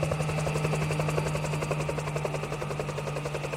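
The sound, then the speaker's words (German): Helicopter rotor thumping as the aircraft flies over the mountains toward Junín, carrying officials and armed police: a steady, rapid rhythmic chop over a low drone, fairly faint and with no voices. “kommt schließlich eine Staatssekretärin vom Bergbauministerium mit schwer bewaffneter Polizei in einem Hubschrauber über die 7 Berge nach Junin geflogen”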